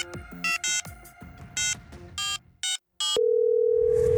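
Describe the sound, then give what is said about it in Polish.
A telephone call is placed from a café: a quick series of short keypad beeps, separated by brief gaps, gives way to a single steady electronic tone that holds to the end. “Z klimatyzowanej kawiarni przy ulicy Wolności Kenrich zadzwonił do zawalnego.”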